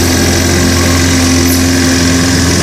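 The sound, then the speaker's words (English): A lawnmower engine runs in a steady, loud drone with a low hum and no change in pitch, heard alone. “Maybe your neighbour's doing it at the moment there. The lawnmower. Ah, there's a sound of summer, isn't there?”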